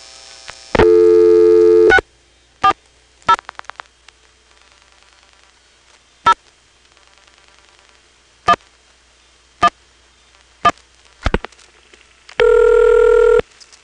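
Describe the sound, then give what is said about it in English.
Telephone exchange register sender tones after dialing the Quantico office code 640: a long multi-tone burst, then a scattered series of sharp line clicks, then a second long tone burst, all over faint line hiss. “From here, if you dial the Quantico office code 640, the register sender converts that to 50.”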